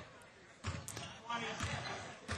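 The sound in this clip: A basketball is dribbled on the court during a college game, with a few heavy, evenly spaced bounces under voices.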